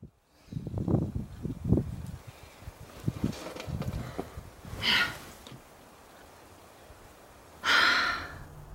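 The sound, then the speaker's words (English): Heavy breathing of a rock climber scaling a very tall, very difficult boulder without a rope: uneven puffs, grunts and rustles at first, then two loud, forceful exhalations separated by a stretch of quiet. “That sound is somebody in the zone. It's the rock climber Nina Williams climbing a very tall, very difficult boulder without a rope.”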